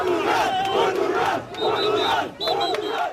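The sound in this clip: Football fans roar and chant after Portugal's 2-1 win over Croatia, a loud crowd whose rhythmic cheering swells in three surges separated by brief dips.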